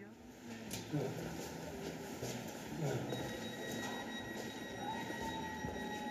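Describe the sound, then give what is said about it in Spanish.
A Berlin S-Bahn commuter train rumbles steadily, with squealing wheels and high, sustained metallic whines that enter partway through over the continuous low roar. “Este tren solo llega hasta Tempelhof.”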